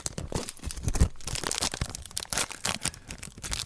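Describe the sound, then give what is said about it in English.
A trading card pack wrapper is torn open with continuous crinkly crackling and several sharper ripping bursts. The plastic rustle is moderately loud, with no talk over it. “I love that package opening sound. Yeah, it's real nice on the Shure SM7B microphone.”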